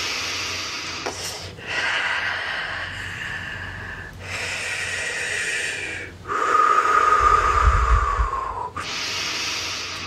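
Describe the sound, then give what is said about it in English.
Slow, deep breathing during a guided meditation: about five long breaths follow one after another, some with a nasal, slightly raspy edge and one fuller and louder than the rest, with no speech. “Deep breath, as new energy comes in, breathe it into your solar plexus.”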